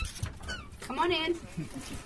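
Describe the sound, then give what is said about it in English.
A dog, a corgi mixed with a yellow lab, gives a brief high whimper amid people talking. “Hello, dog. This is Chunky. Do you like dogs? I like dogs. Okay, he's a corgi mixed with a yellow lab.”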